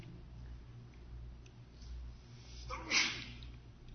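A single sharp sneeze bursts out near the end as a short hissing burst, faint overall above a low steady hum.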